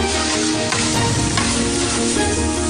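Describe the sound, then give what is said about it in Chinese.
Loud, continuous sizzling as chili, Sichuan pepper, ginger slices and bean paste are stir-fried, with a dense hiss of hot oil and a few sharper scrapes from stirring, with no talk. “再把辣椒、麻椒、姜片、豆瓣酱一起炒香，”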